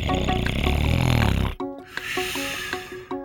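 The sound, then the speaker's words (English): A ventilator pushes air in and pulls it back out. A loud, rough whoosh of breath gives way to a quieter stretch with soft rhythmic pulses and small clicks. “A ventilator is a machine that helps people breathe.”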